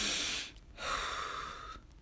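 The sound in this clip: A deep breath is drawn, heard as two long, noisy, airy breath sounds, the second longer and steadier than the first, with no speech.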